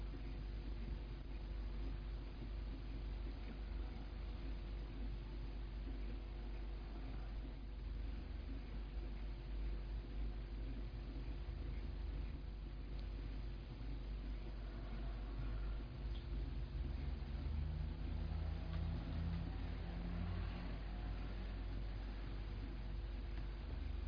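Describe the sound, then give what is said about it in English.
The motor inside a recorder runs as a steady, faint low hum with soft hiss underneath, unchanging and continuous throughout. “Some of you may hear this motor at work inside this recorder.”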